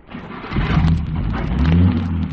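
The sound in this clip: A car engine revs and accelerates with a steady, loud, throaty roar that builds slightly and holds for a couple of seconds, with no voices over it.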